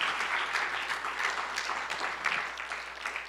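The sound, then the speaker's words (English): Congregation applause during a church service, dense and steady clapping that fills the whole few seconds at an even, moderate level with no clear voices on top. “Somebody give God a round of applause.”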